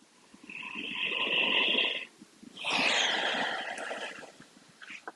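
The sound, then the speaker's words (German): Slow, deliberate breathing in and out during a mindfulness exercise: two long, airy breaths, each lasting nearly two seconds and fairly loud, with a short pause between them and a brief faint breath at the end, no talking. “Und in dem Fall ist das das bewusste Ein- und Ausatmen.”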